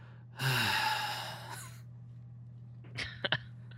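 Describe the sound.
A voice imitates the groan of a movie theater audience at the credits, a single drawn-out, breathy vocal groan, followed by a few faint short clicks.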